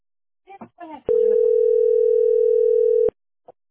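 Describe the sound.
A steady telephone dial tone plays as a single unbroken pure hum for about two seconds. Brief voice fragments come just before it, and a short faint blip follows.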